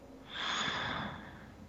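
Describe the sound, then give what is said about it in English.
A single deep, airy indrawn breath, soft and quiet, swelling and then fading over about a second. “Take that deep indrawn breath and be in the moment.”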